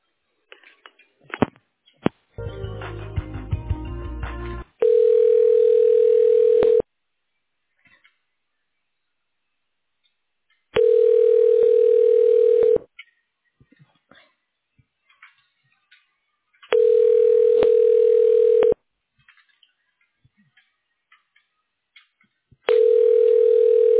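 A telephone line rings back while a call is transferred to voicemail: a few clicks and a burst of line noise, then a steady mid-pitched tone sounding in even two-second bursts separated by silence, the last cut short.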